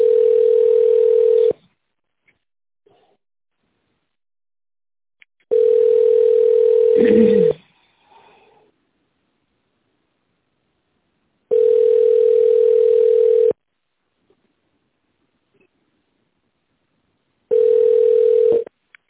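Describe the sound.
Telephone ringback tone heard while calling a company's line: long, steady, mid-pitched tone bursts separated by several seconds of silence, the first and last cut off, with a brief faint rustle after the second.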